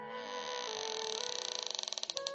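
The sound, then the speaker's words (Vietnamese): A door creaks open by itself with a faint, drawn-out, pitched groan that breaks into quickening rapid pulses toward the end. “cửa phòng tự động mở ra”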